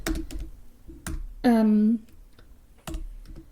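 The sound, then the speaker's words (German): Someone types a quick note on a computer keyboard, producing a few short bursts of soft key clicks separated by pauses. “Warte mal, das schreibe ich mir direkt mal auf. Trailer.”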